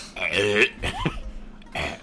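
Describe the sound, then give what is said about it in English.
A man burping while drinking beer: a long, low, croaky burp, then a few shorter vocal sounds. “I had a burp.”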